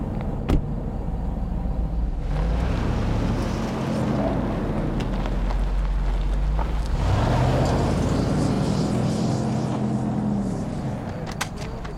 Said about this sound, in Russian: Машина с бандитами уезжает.